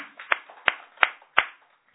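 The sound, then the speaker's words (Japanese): Clapping marks a birthday celebration: four sharp hand claps fall in an even rhythm, each one distinct, then the sound stops. “盛大な拍手でお祝いをしたいと思います”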